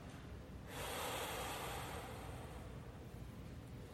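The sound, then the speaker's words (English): Slow exhalation of a held breath during a guided breathing exercise, a soft, steady breathy hiss that lasts several seconds, faint and without talk. “Hold it. How does it make you feel? That is the white fire. And now breathe it out.”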